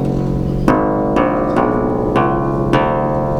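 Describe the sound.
Long unfretted bass strings of a theorbo lute are plucked five times in a slow, even series, each note ringing rich and resonant and decaying before the next pluck.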